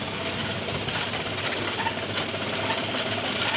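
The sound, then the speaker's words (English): A wool balling machine winds long rovings into balls, giving off a steady, dense mechanical whirr with faint ratcheting texture that holds at an even level throughout. “that sound you can hear is a balling machine that Barb has just turned on”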